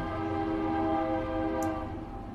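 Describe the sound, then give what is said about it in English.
A passing train sounds a long, sustained horn blast, a loud steady chord-like tone with low rumble beneath that holds throughout and eases slightly at the end. “sorry about the train there.”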